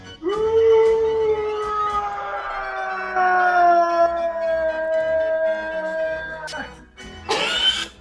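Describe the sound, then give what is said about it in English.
A voice imitates a sci-fi starfighter flying past with a long, droning, howl-like tone that slowly sinks in pitch over about seven seconds. It ends with a short, breathy, hissing burst. “here he is doing an impression of a TIE fighter from Star Wars.”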